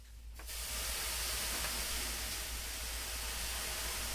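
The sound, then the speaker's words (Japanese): Steam hisses as aroma water is ladled onto heated sauna stones: a broad, loud, even hiss bursts in after a brief quiet moment and holds steady to the end. “このアロマ水をすくって熱したサウナストーンにかけると、”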